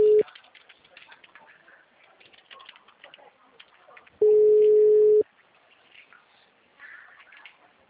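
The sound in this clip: Telephone tones while calling: a steady mid-pitched tone sounds for about a second, after a brief clipped tone at the very start, over faint tapping and chirpy background noise.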